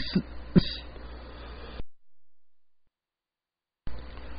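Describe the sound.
Throat clearing and coughing from a tickle in the throat: two short, sharp bursts over faint background noise, followed by a long stretch of silence.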